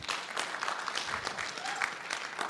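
An audience gives steady, moderate applause, a continuous even patter of many hands clapping throughout.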